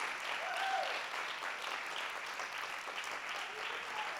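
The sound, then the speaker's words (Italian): Applause from an audience at a Sunday gathering, honoring special people who lead groups: a faint, even wash of clapping that carries on throughout without a clear break. “Vogliamo fare un grosso applauso a ognuna di queste persone speciali.”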